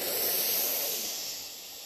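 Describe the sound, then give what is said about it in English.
A deep breath drawn in through the nose during a guided relaxation breathing exercise: a single soft, airy hiss that holds steady, then slowly fades. It is faint and heard alone. “Start with one deep breath in through your nose,”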